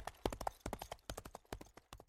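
Horse hooves clip-clop as a rider travels through the night, many quick, even hoofbeats in a steady trotting rhythm, fairly faint, with no voices.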